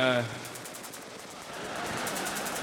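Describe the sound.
Cowboys firing guns at an annual event, a rapid rattling run of gunshots that continues steadily after a brief voice at the start.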